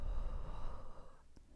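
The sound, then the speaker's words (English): A slow, deep exhale follows a nasal inhale during a guided relaxation exercise: a quiet, steady, airy rush of breath that thins out toward the end. “So we'll take a nice deep inhale through the nose, relaxing the muscles in the forehead. And we'll exhale,”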